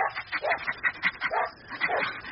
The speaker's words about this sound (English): Good dog. Good dog.